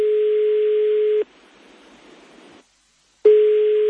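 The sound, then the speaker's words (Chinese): A steady electronic telephone tone signals an incoming call. It sounds loud and unbroken, then gives way to a stretch of soft hiss and a brief silence before the tone resumes. “sorry， 等先，有电话入，等先。”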